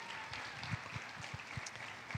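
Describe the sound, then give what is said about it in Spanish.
A church audience applauds the Lord, quiet clapping with a faint rhythmic pulse of low thumps beneath a soft, continuous wash of hands. “Demos un aplauso al Señor.”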